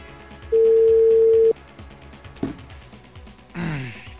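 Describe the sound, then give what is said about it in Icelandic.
Ringback tone on a phone call: a single steady, mid-pitched beep lasting about a second, followed by a few softer, breathy noises. “Þetta það hringir og svo hringir og hringir og hringir.”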